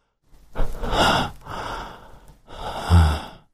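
Rapid, labored breathing of a person, heard at a distance, comes as three long ragged gasping breaths with a raspy, hissing texture, alone without talk.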